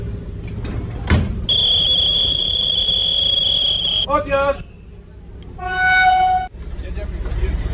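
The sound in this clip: A historic train whistle sounds at departure on the old Nowy Sącz–Chabówka line, opened in 1884. A long, steady, high-pitched blast is followed later by a shorter one, with people talking underneath.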